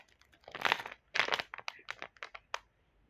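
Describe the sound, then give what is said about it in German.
Crinkling and rustling of a plastic Lego minifigure Series 21 mystery bag being cut open and emptied, with two loud crinkly bursts followed by a string of shorter rustles and snaps. “Ich schneide auf und tue das raus.”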